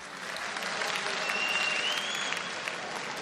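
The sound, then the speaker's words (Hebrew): An audience at a school holiday gathering of students and parents applauds. Dense, even clapping holds at a steady level throughout. “הרב שמעון לוי, שמגיע לו מחיאות כפיים”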